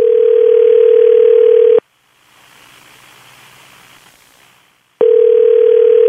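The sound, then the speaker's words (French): A phone call to a pharmacy rings: a loud, steady, low ringing tone lasts nearly two seconds, then a roughly three-second gap of soft hiss, then the same tone starts again. “Se lance, on compose. Ça devrait sonner bientôt.”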